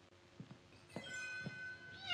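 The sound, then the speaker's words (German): Thin meows of a young kitten sitting outside a door: a few short, fairly faint cries spaced apart, with no talking. “Das klingt ja ganz armselig. Da muss ich direkt nachschauen. Die Katze muss vor der Tür sitzen.”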